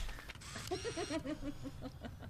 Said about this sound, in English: Yeah, that's it. Suck that film in. Gotta love it.